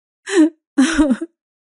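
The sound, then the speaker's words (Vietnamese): A girl cries with convulsive sobs in two wavering vocal bursts separated by a short silence. The second burst is longer and ends in a brief catch. “Dung khóc nấc lên.”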